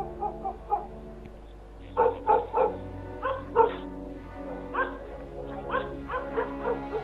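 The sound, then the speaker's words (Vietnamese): A lone dog barks in a garden with many sharp barks and yaps in irregular bursts, some quick and clipped, others more drawn out. “Con chó cứ chạy vòng quanh trong cái khu vườn mà sủa lên có một mình nó thôi.”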